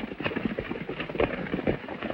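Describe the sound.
Horses gallop across rocky, arid ground, their hooves making a rapid, irregular run of thudding clip-clops at moderate loudness, with no talk.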